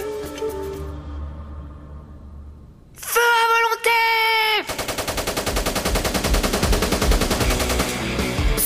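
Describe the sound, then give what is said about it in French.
Machine guns open fire on emus in a wheat field on a hot day: after a quiet stretch and a loud sustained tonal blast, a rapid, steady stream of automatic shots rattles on without pause to the end. “Les mitrailleuses sont chargées, pointées en direction des émeus.”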